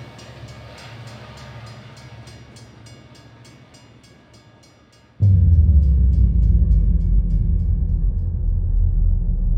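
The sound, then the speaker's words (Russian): A tram rolling into a small depot: a fading, rhythmic clatter of wheels, then a sudden loud, low rumble that starts midway and holds steady. “Постепенно огней становилось все больше, пока не стало совсем светло. Трамвай въехал в небольшое депо.”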